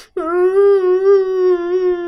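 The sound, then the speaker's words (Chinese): A single sustained wailing cry from a mud-covered cat stuck below a cliff in a mud pond, loud and steady in pitch with a slight wavering, lasting about two seconds. “嗯哎呀，它在哭！”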